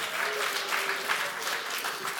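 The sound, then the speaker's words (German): Audience applause from men clapping on request at a comedy-style show: a steady, dense patter of many hands, holding at an even level for the whole two seconds with no clear pauses. “Männer jetzt einmal klatschen, wer es auch würde.”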